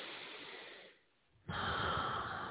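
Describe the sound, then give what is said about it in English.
A deep breath taken alone: a soft breathy rush, a brief silent pause, then a second, louder and fuller rush of air. The whole breath is quiet. “Deep breath.”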